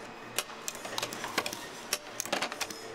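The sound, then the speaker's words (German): A nailing machine clicks as it fastens reed plates onto the comb of a Marine Band 1896 harmonica, with many sharp, irregular taps over a faint mechanical hum. “Die Maschine ist mit einem großen Vorrat an Nägeln ausgestattet. Immerhin müssen auf jeden Kanzellenkörper 2 Stimmplatten genagelt werden.”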